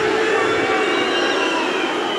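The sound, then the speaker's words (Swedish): A whole audience boos a government minister giving a memorial speech, a loud, continuous wash of crowd noise with no pauses. “Och när han gjorde det så blev han utbuad av hela publiken.”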